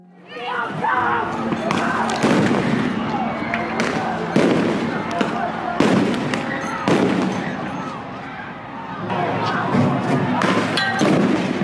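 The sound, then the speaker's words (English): Police fire tear gas and rubber bullets at protesters. Several loud, sharp bangs come at irregular intervals over continuous crowd noise, and people talk throughout. “President Trump was speaking at the White House as police fired tear gas and rubber bullets to clear protesters nearby.”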